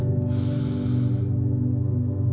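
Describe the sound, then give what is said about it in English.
One deep breath is drawn in, a soft rushing inhale lasting about a second, heard over a steady low humming drone that continues throughout. “take a deep breath in”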